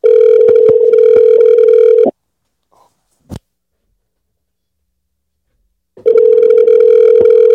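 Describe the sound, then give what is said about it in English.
A telephone ringback tone plays on an outgoing call line: a steady, loud, buzzing tone holds for about two seconds, drops to silence with a faint click, then returns after a pause of roughly four seconds. “Let's call her. Let's see what she up to, man. Let's see what she up to. See if she pick up.”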